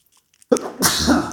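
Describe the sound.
A person sneezing in an exaggerated, drawn-out way that imitates a pop song tune: a single sharp burst followed by a sustained, voiced, breathy sneeze.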